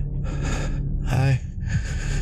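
A shaky breath drawn in a few ragged, voiced bursts, uneven and tremulous, each catching slightly before it fades.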